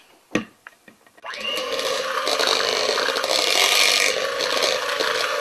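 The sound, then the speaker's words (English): A blender mixes wet cake ingredients of soy milk, vanilla and lemon zest. A few light knocks come first, then the motor kicks in with a loud, steady whirring grind that holds to the end. “the vanilla, and the lemon zest. Very fragrant. Yes. Okay, we blend again.”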